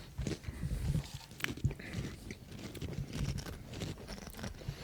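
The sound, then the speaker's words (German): Crunching and chewing of mustard-honey flavoured potato crisps, with many irregular crisp bites and crackles running throughout at a fairly faint level. “Naja, wir essen Chips und andere Sachen.”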